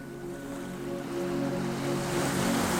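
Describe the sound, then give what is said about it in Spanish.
Calm sea waves wash gently onto a beach near a cliff: a soft, continuous surf with a light breeze, swelling slightly louder toward the end. “La marea está tranquila. Las olas llegan con delicadeza y se retiran sin prisa.”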